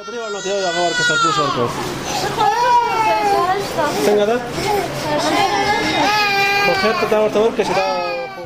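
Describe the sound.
Babies and young children cry in the maternity ward of the provincial hospital in Tarinkot. The high, wavering wails and sobs are loud and continuous, rising and falling without a break.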